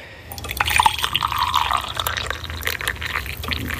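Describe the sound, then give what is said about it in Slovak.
Hot water poured over coffee: a continuous gurgling, splashing stream starts after a short pause and runs steadily to the end. “Tak, zalejeme si kávičku.”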